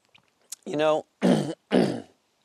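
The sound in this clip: Someone clears phlegm from their throat: a short voiced grunt, then two harsh, raspy bursts of similar length, fairly loud, with no other sound around them.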